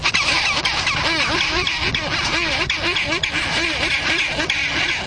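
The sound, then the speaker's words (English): Chinstrap penguins call in a loud, dense chorus of rapid, repeated harsh squawks that overlap continuously throughout. “the chinstrap is considered to be the most aggressive and ill-tempered of the penguin species.”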